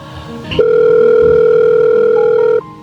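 A telephone ringing: a loud, steady electronic tone is held for about two seconds, then shifts briefly to a different pitch before cutting off.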